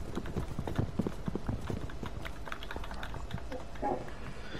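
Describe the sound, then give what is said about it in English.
Horses' hooves clip-clopping in a quick, irregular patter of many soft knocks, faint and alone. “Look at them! Look at the horses! Look at the horses!”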